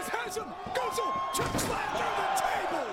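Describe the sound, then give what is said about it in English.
Wrestler slammed through a table at a pro wrestling event, with several sharp impacts over constant crowd noise and voices. “He's going to catch him? Black hole slam? Black hole slam through tables usually goes wrong.”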